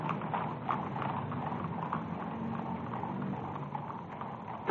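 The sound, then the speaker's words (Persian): Hooves of mounted imperial guard cavalry horses trotting in a military review parade: a dense, steady stream of many overlapping clip-clop hoofbeats at an even, moderate loudness, with no talk over them. “اسواران گارد شاهنشاهی در پشت سر ملوکانه در حال حرکت هستند.”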